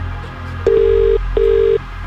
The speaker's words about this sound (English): Keep a close eye on your phone. We're making this call right now. And you need to answer within 5 rings.